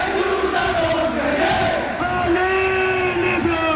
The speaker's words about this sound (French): on se replonge avec vous, Hélène Roussel, et avec les supporters dans cette ambiance de folie